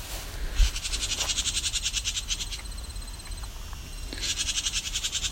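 A house wren scolds near its nest with harsh, rapid, rattling chatter, delivered in two long bursts separated by a fainter, quieter stretch.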